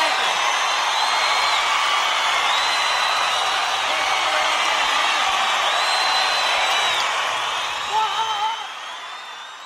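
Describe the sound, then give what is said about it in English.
A wrestling crowd at the Spectrum arena cheers and roars while standing in anticipation of a wrestler's final appearance, a dense, sustained wash of crowd noise with whistles and shouts. A voice talks over it before the noise eases slightly at the end. “Well, the crowd's underway. Boy, they're standing. They're excited.”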